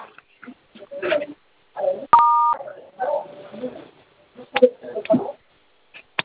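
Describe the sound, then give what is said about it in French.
Telephone keypad tones sound as a number is dialed, a brief burst of steady electronic dual-tone beeps between stretches of people talking over a phone line. “Quand vous composez le 440, qu'est-ce qui sort? Attends, je compose.”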